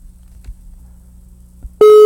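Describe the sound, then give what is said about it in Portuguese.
An outgoing call's telephone ringing tone: a loud, steady, single-pitched tone cuts in abruptly near the end after a quiet stretch of low hum. “Tá chamando já, viu, rapaz? Atenda, pelo amor de Deus.”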